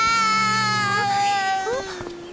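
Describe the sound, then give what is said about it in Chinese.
A child cries in a long, sustained, high wail whose pitch wavers and slides, then breaks into a few shorter, uneven sobs toward the end. “好了，不要哭了。”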